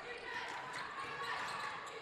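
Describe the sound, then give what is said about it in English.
A basketball is dribbled on court during a women's basketball game. A few faint bounces sit under continuous crowd noise. “Conyers picks up her dribble, has to go away with it”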